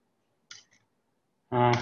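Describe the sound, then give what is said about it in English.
A mouse click on a print button, a soft, quick double click of press and release, then a voice begins speaking. “So we click the print button. This generates the PDF.”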